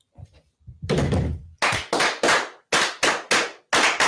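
Rifles fire a volley on command, a run of sharp, loud cracks in quick succession, each cutting off abruptly, preceded by a longer rumbling blast.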